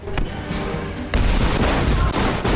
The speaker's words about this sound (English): ushered into a waiting SUV. It explodes.